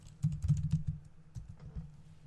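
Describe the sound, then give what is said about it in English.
Rapid typing on a computer keyboard: many quick, irregular keystroke clicks, loudest in the first second, then sparser taps, with no talk over them. “I'm typing, you can tell, right?”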